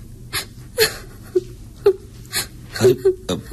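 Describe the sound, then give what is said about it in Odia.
Crying and sobbing, heard as many short gasping whimpers and catching breaths in an irregular rhythm, fairly loud and close, with no clear words. “ଏଥିରେ କାନ୍ଦିବାର କ'ଣ ଅଛି?”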